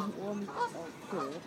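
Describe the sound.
Goose honking: a few nasal, wavering honks rise and fall in pitch, moderately loud and separated by short gaps.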